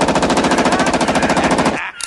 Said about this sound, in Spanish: Eso que ves ahí es una Steiger. Es una hija de puta muy peligrosa. Escucha.